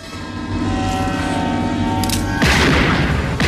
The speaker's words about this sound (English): She appears to shoot Chucky in the chest.